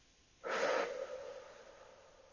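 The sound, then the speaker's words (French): Slow breath in through the nose and out through the mouth: one soft, airy breath rises sharply, then trails away gradually. The sound is faint and heard alone. “J'inspire tranquillement par le nez et j'expire lentement par la bouche.”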